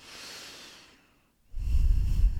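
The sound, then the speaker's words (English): A deep breath taken in and let out: a long, airy inhale, a brief silent pause, then a louder, rougher exhale that continues to the end. “Take a second just to close your eyes and take a deep breath with me now.”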